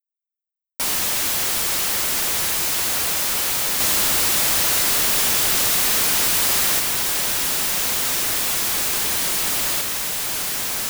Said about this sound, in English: White noise.